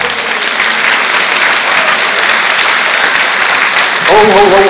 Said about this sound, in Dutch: Een applausje voor jezelf hoor.